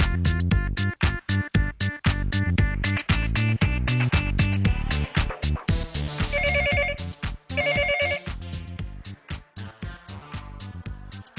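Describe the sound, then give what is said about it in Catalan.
A telephone rings on an outgoing call placed at 3:15 in the morning. Loud, regular bursts of ringing are separated by brief gaps, with a higher warbling trill twice in the middle. “Estem fent una trucada, ara mateix passa un minut de 3:15 del matí.”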